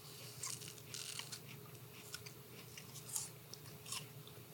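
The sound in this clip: Someone bites into an apple and chews it, giving a series of crisp crunches in an irregular rhythm, quiet throughout and with no voices.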